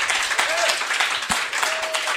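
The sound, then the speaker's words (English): Steady crowd applause from an audience gathered at a gun shop event, a dense continuous wash of clapping with a few louder hits and some voices mixed in. “We're here at Cape Gunworks, and everybody give yourselves a round of applause.”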